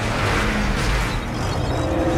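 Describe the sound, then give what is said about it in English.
A convoy of armored vehicles speeds past, making a loud, steady roar of engines and road noise that holds evenly throughout, with no clear rise or fade. “The convoy rolls past the building on the side opposite the window.”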